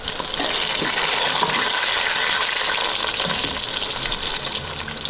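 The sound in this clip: Loud, continuous sizzling of mushrooms frying in a pan after being boiled and steamed, a dense hiss that holds steady throughout with no talk.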